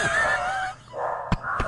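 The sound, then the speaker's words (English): Excited dogs, stirred up by knocking, give a high drawn-out whine followed by two sharp barks near the end. “Let's let the dogs calm down.”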